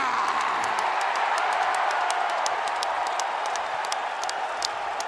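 Wrestling fans cheer at WrestleMania, a loud, continuous crowd roar that holds an even level throughout, with sharp, brief crackles scattered across the top.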